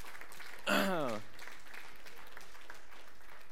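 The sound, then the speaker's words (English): Applause from an audience gathered for a worship service, a steady wash of clapping that runs through the whole clip, with a short falling vocal whoop rising above it near the start. “you can clap for that”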